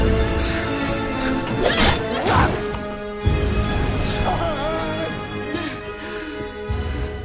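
A heavy smash as someone is struck hard on the head with an iron bar during a fight, one sharp impact set within a busy film soundtrack of loud dramatic music and scuffling.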